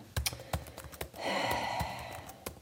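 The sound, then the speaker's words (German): Rapid, uneven typing on a computer keyboard: many sharp key clicks in an irregular rhythm, with a few harder strikes standing out. “Ich tippe und tippe und tippe und tippe und es geht so langsam vorwärts und ständig verknoten sich meine Finger.”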